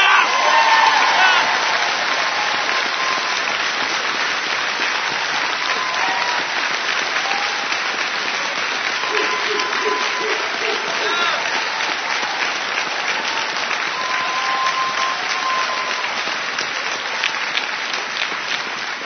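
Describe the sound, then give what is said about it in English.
A long round of audience applause for a sergeant major being honoured for his service, many hands clapping steadily throughout with some cheering and whoops mixed in, slowly easing off toward the end. “Sergeant Major, that round of applause is both for your service to ACB and your service to this country.”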